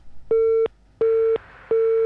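Busy tone after a phone call into a radio phone-in is cut off: three steady mid-pitched beeps of equal length, separated by even gaps.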